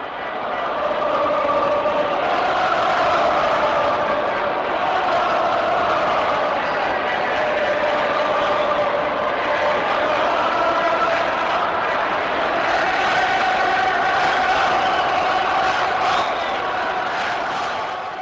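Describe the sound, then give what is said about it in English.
A massed crowd sings at Croke Park during the 1974 All-Ireland Gaelic football final. Thousands of voices blend into a steady, muffled, sustained drone that holds at an even loudness throughout. “That's not the Cop in Anfield. That is the sound of Croke Park.”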